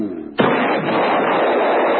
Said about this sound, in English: You got a firecracker, an M80 or something? Maybe we can wake them up. Yeah, that's it. I got one of these.